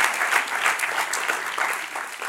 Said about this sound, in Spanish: Démelo un aplauso al Señor.